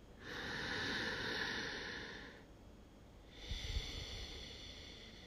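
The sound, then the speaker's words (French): Slow breathing in and out during a guided yoga breathing practice: one long, soft inhale followed after a pause by a long exhale, quiet and alone. “on inspire, on expire naturellement. Encore une fois, on inspire, on expire.”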